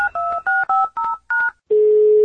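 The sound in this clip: Touch-tone telephone keys beep six times in quick, crisp succession as a phone call is dialed, followed by a steady lower tone that sounds alone.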